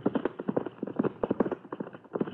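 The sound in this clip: Horses gallop, a rapid rhythmic clip-clop of hooves beating steadily and continuously in quick clustered strikes.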